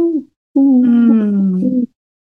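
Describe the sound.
A human voice imitates a mourning dove's call: a short low hoot followed by one longer, steady cooing note, heard alone.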